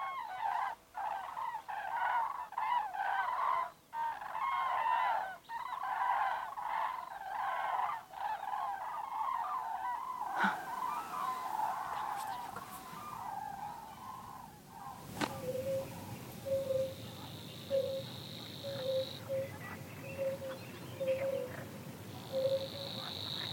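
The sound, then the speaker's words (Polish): Cranes call over marshland near a roosting flock, a chorus of honking, bugling cries through the first half. Later the calls thin out beneath a steady, rhythmic chirping that continues to the end. “widzi te żurawie i już je nawołują”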